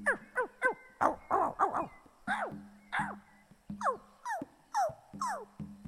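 Six small dog puppies whimper and yelp in many short, high, whining calls that each slide downward in pitch. The calls come in irregular clusters with brief pauses between them.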